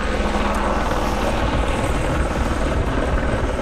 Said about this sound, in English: That is the sound of the Lockheed Electra air tanker at the Whitehorse Airport.